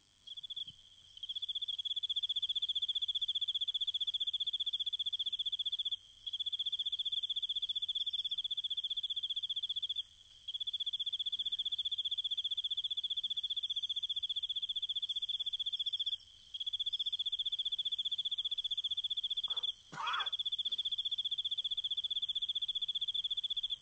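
A cricket chirps in a continuous, high-pitched, shrill trill that holds steady and fairly loud, broken by a few brief pauses. A short, sharp noise cuts in near the end.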